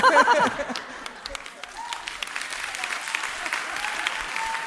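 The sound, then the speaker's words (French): An audience breaks into applause: a brief voice at the start, then light, scattered clapping that thickens slightly toward the end. “On l'applaudit.”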